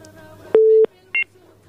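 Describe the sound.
Telephone dialing tones as a call is placed: a longer steady beep followed, after a short pause, by a brief, higher two-note tone, both loud and clean over a faint hum.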